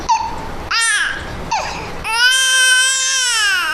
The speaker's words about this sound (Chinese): 宝贝儿，别哭啊，妈妈突然之下也是哄你啊，乖乖宝贝。